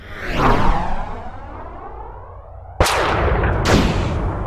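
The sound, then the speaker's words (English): Gunfire in a science-fiction audio drama: a long sweeping whoosh followed by two sharp, loud blasts, the second close after the first. “why are you shooting at me?”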